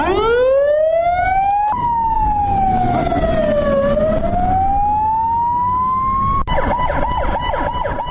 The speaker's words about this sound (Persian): صدای چند امبولانس میشنویم.